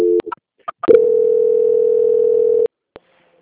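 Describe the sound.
Steady telephone line tone during a call transfer: a few soft clicks, then one continuous mid-pitched tone held for under two seconds that cuts off abruptly, followed by a single faint click, with no voices.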